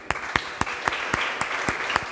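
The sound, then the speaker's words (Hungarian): Audience applause at a lecture, with eight sharp, evenly spaced claps standing out in a steady rhythm over a softer wash of group clapping. “akkor ott a harmadik, oda is egy tapsot.”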